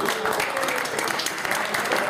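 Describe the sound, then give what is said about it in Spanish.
Audience applauding people recognized for good sales, with thick, continuous clapping from many hands that stays level and loud through the whole short stretch. “por favor, aplausos por favor para su buena venta”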